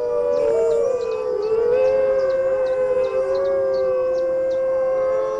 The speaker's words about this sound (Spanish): Este es un aullido de defensa.